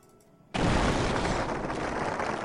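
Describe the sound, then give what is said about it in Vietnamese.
Four old, battered warships exploding into huge fireballs: a sudden, loud, deep blast breaks a quiet moment, then a dense, rumbling roar holds steady to the end. “4 tiếng nổ vang kinh thiên động địa, tàu chiến hạm cũ nát đã lập tức biến thành 4 quả cầu lửa cực lớn ngay trước mặt Trác Thiên Tướng.”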